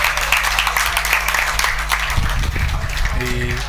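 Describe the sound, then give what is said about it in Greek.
Crowd applause for an injured female player being helped off the pitch at a sports match: steady, sustained clapping throughout, with a voice rising over it near the end. “Έχετε και το χειροκρότημα εδώ από όλο τον κόσμο.”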